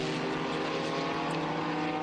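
A Lotus racing car's engine roars past during a circuit race, a loud, dense, high-revving drone that stays steady throughout.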